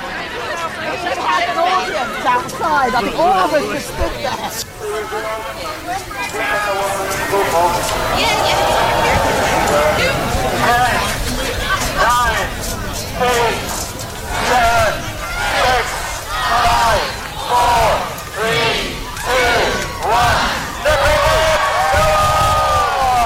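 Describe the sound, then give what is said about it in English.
A crowd of people going into the water together for a group dip: loud, continuous shouting, shrieking and cheering that breaks into rapid, rhythmic yelps in the second half. “And here's the sound of everybody going in the water.”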